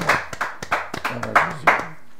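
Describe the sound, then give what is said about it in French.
A group claps hands in a church radio studio, a brisk run of sharp claps in a loose, uneven rhythm, with a voice faintly sounding underneath. “Acclamons pour notre”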